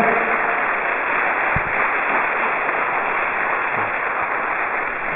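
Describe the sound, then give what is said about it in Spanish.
A church audience applauds during a Spanish-language sermon, a muffled, dull hiss of many hands clapping, steady and moderately quiet for the whole clip, with no separate claps standing out. “Eso merece un aplauso al Señor.”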